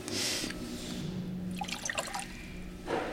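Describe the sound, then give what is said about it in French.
Water poured and mixed into ground coffee, about 10 grams of coffee to 130 grams of water. A steady, moderate liquid trickle with scattered dripping, brighter splashes through the middle. “Donc on va mettre 10 grammes de café pour 130 grammes d'eau. L'idée, c'est de mélanger le café et l'eau.”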